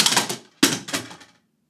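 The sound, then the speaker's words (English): Two photos falling from bookshelves in an office, heard as two loud clattering crashes about half a second apart. Each has a short rattling tail, followed by silence. “Randomly, two photos just fell from the bookshelves in Father Pat's”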